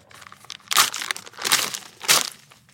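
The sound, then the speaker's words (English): Paper envelope torn open at a mock science awards ceremony: three loud crinkling, tearing bursts of paper with softer rustling between them and no talk. “you got to open the envelope first”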